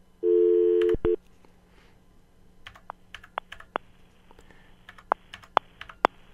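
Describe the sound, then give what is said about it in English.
A landline telephone number being dialed after a recorded notice to dial 1 or 0 plus the area code: a steady tone lasting about a second, then a series of short, sharp keypad beeps and clicks at uneven intervals. “You must dial 1 or 0 plus the area code before the number one. You are dialing. Okay, we'll dial 1.”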